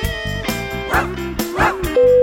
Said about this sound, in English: Dogs. They go bow wow. They go bow wow. They go woof woof. They go woof.